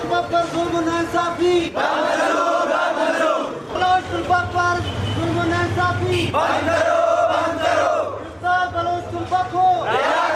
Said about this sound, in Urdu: Quetta press club کے باہر ہونے والے مظاہرے کے شرکا نے اپنے مطالبات کے حق میں نعرے بازی کی۔